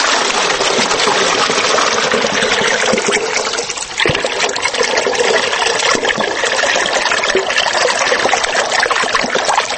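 Water from an irrigation channel pours into a 10-litre container as a loud, steady, continuous rush of splashing flow. It dips briefly partway through, then continues unbroken with no voices.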